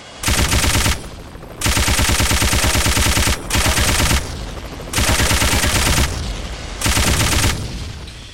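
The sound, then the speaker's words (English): Machine gun fire from a video game: several loud bursts of rapid, evenly spaced shots, separated by short pauses in which a dense, steady droning background carries on. “Machine gun. Missile was supplied. Machine gun 100.”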